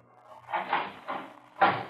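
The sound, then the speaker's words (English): A heavy steel vault door with a combination lock, five inches thick, is opened with a few dull clunks and scraping knocks spread across two seconds. The last thud is the loudest. “Why, a vault. No, Kelton, not exactly. The steel door set by a combination.”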